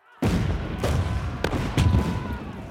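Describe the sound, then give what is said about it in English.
Gunfire and artillery erupt as troops loyal to the Sultan open fire on the rebel Janissaries' barracks: a sudden loud onset, then sustained rumbling booms broken by several sharp cracks. “The Sultan has already ordered the barracks surrounded by artillery. Now, with the trap sprung, he orders the troops loyal to him to open fire.”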